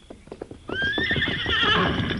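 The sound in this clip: Silver, the Lone Ranger's horse, whinnies in a long, loud, shrill neigh that rises and wavers, after a run of light clip-clopping hoofbeats.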